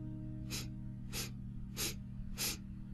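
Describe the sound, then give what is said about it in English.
Four quick breaths drawn in through the nose, evenly spaced soft sniffs, faint over a steady low hum. “simply take in 4 quick breaths”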